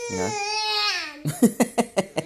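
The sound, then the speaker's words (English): Noisy infant babbling: a drawn-out, high, wavering vocal sound, then five short rhythmic syllable bursts in quick succession. “I'm looking at my very noisy infant. I'm delighted with him, and making monster noises now”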